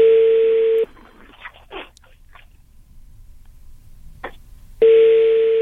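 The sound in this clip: A telephone call goes unanswered. A steady, single-pitched ringing tone sounds briefly, then there are about four seconds of near silence with a few faint noises before the same tone returns.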